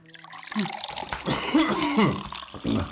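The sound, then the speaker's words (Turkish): Water poured into a glass for someone, a short stretch of trickling and splashing that rises and falls in loudness, moderately faint. “Dur, su vereyim ben sana.”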